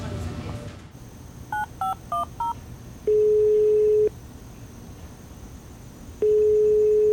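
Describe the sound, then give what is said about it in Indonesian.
Phone keypad tones dial a call: four short two-note beeps in quick succession, then two long steady ringing tones separated by a pause. A low background rumble comes before the dialing. “Ah, Dajjal kemana sih kok ditelepon nggak diangkat-angkat?”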